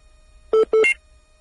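Two short telephone keypad tones sound in quick succession as a call is placed, clean and alone against near silence.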